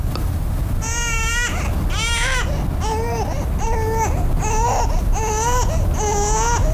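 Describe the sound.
Crying comes in seven high, wavering wails, each lasting about half a second. They repeat at a steady pace over a constant background hiss.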